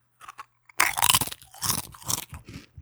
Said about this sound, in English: Let's open up the Wendy's Pringles. Here we go. Take a little taste test.